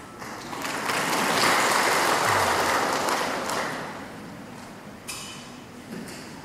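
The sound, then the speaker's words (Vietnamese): Audience applause at a Buddhist sermon: dense, steady clapping that swells, holds for a few seconds, then fades into a quieter patter with a couple of stray claps. “Quý vị vỗ tay càng nhiều càng tốt. Tại sao biết không? Tại quý vị vỗ tay là thầy nghỉ mệt.”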